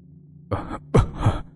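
A man coughs and chokes after falling to the ground: a short breathy burst, then a longer, strained, rasping cough broken into two pushes. Fairly loud, with no words.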